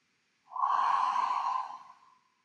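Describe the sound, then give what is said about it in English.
One long, deep breath, drawn out steadily for over a second and trailing off softly at the end. It is heard alone with no talking. “Now let's take another deep breath.”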